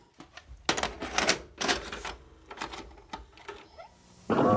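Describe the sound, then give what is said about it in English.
A VHS tape being loaded into a VCR: irregular mechanical clacks and rattling clicks, ending in a sudden louder whirring burst. “Let's pop in the tape.”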